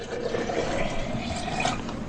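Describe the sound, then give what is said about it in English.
Oil pouring into a jar from a pot: a steady, fairly faint liquid trickle and gurgle running without a break throughout. “Want me to pour the oil”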